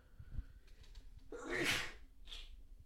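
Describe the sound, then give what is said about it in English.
A single sneeze bursts out sharp and breathy against a very quiet background, followed by a softer trailing breath. “damn, I just had a sneeze.”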